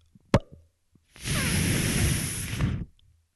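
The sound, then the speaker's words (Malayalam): A soda bottle being opened: one sharp crack of the cap, then a loud, steady fizzing hiss lasting about a second and a half before it stops abruptly. “ഒരു soda പൊട്ടിക്കുന്ന ശബ്ദം കേട്ടു നോക്കിയാലോ.”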